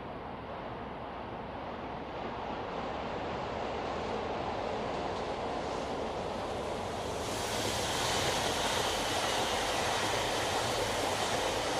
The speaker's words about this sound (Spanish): Tren en Deza Dart, Polonia.